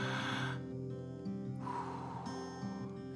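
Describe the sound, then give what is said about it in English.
A person draws a deep breath, heard as two soft, airy breath sounds over quiet, sustained tones. “Let's breathe. You ready?”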